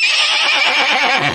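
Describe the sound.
A horse whinnies once, a loud, shrill, quavering neigh that lasts just over a second and drops lower as it trails off.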